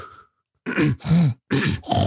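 A person imitates a man clearing his throat: after a short pause come four loud, harsh, rasping bursts in close succession.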